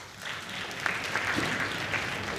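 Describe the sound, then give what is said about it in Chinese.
Audience applause welcomes two performers onto the stage at a Beijing crosstalk comedy show: a dense, steady wash of clapping that runs unbroken for the whole clip at an even loudness. “咱们掌声有请二位。”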